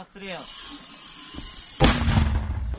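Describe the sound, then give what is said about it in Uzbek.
Italian-made mortars fired at Russian positions in Donbas. After a brief voice, a single loud, heavy blast erupts and trails off into a rumbling roar. “Bugun u safdoshlari bilan birgalikda Donbassdagi Rossiya pozitsiyalariga Italiya minomyotlaridan zarba bermoqda. Biz hozir Italiya minomyotlaridan foydalanyapmiz.”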